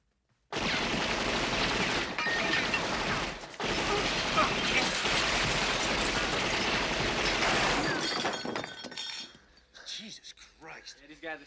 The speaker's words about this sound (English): Yeah, these guys are serious. I hate machine guns.